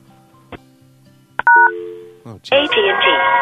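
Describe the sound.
Telephone keypad dialing tones sound as a caller rings about a yard sale: a short burst of dual-pitched beeps after a click, then a loud, steady voice-like sound takes over.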